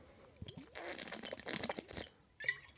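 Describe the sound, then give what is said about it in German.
Someone takes a sip of a drink, a quiet slurping, crinkly rush lasting about a second, with a few faint clicks around it. “Ich trinke jetzt einen Schluck.”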